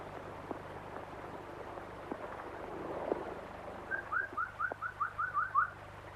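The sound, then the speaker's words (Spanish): A person at breakfast whistles toward a birdcage, giving a quick series of short, bright, upward-flicking chirps that stand out faintly over a quiet room hum. “Vuelve su cara hacia atrás y silba.”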